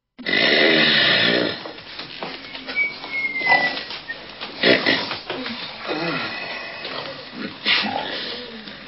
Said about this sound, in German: Bald war die Zeremonie von lautem Schnarchen begleitet.